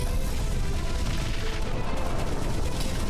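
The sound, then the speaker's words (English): Artillery fire from Class A destroyers: a loud, dense barrage of blasts and booms merging into a continuous roar with no clear breaks, no voices heard. “Class A destroyers equipped with some serious artillery. This is it. Hold on to your hot comb. Deploy offensive weapon.”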